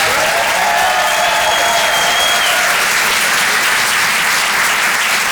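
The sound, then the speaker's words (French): Loud, steady applause from an audience for a performer at a comedy and song show, dense clapping holding an even level from start to finish. “Faites du bruit, s'il vous plaît, pour Vincent Serroussi.”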